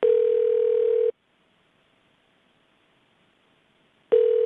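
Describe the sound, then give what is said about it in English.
A telephone line tone plays while a call is being transferred: one long, steady electronic tone, then about three seconds of silence, then the same tone starts again. It is clear and fairly loud. “You are being transferred to a guest.”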